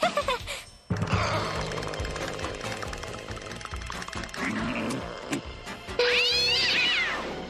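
A cat meows near the end, a single clear, rising-and-falling cry that stands out over a busy, steady mix of other sound.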